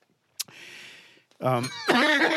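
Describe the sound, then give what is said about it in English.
A deliberately faked cough: a single sharp burst followed by a soft breathy exhale, then people start talking. “That was my fake cough.”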